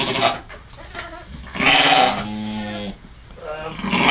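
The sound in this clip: Lambs bleating, large newborn lambs being handled while their umbilical cords are sprayed with iodine: several loud, wavering bleats, including a long quavering cry midway, over a noisy background.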